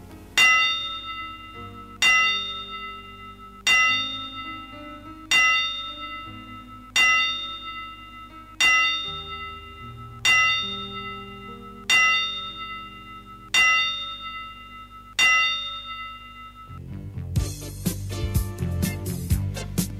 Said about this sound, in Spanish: Y por supuesto, 10 campanadas para él, en nombre de Boxeo Planeta